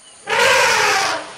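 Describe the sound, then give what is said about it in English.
An elephant gives a loud trumpeting call, forcing air through its long trunk. It is one brassy, blaring blast of about a second that starts suddenly and fades at the end. “That sound you're hearing is an elephant. That's its trumpeting call. Elephants make that noise by pushing air through their long trunk, and it's loud.”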